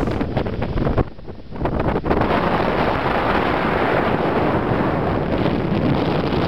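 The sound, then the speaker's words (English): Strong wind blows across a high, rusty bridge leading to an old lighthouse on the southwesternmost tip of Ireland. It roars and buffets the microphone loudly and continuously, easing briefly near the start before returning at full force. “You'll have to pardon the noise in this video. It's a whole lot of wind blowing across a high, rusty bridge that goes to an old lighthouse on the southwesternmost tip of Ireland.”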